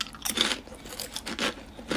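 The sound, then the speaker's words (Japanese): Someone eats salad-flavoured thin rice crackers, with faint dry crunches and chewing that come in irregular bursts and then fade between bites. “お菓子食べてます。サラダ味の薄焼きせんべいです。”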